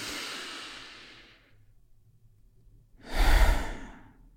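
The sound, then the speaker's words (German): A deep breath taken during a guided relaxation exercise: a long, soft airy exhale fades out, followed after a short pause by a stronger, fuller breath swelling and easing off, with no talking. “Und weil es so schön ist, nehmen wir noch einen zweiten tiefen Atemzug.”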